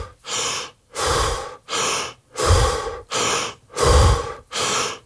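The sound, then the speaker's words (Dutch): Morning breathing exercises done lying in bed: about eight forceful, rhythmic breaths alternating in and out in a steady, loud, gasping pattern, with short pauses between them and no talking. “begint hij eerst met ademhalingsoefeningen, nog liggend in zijn bed.”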